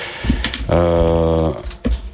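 A few brief keystroke clicks of typing on a computer keyboard sit around a loud, sustained buzzing tone in the middle.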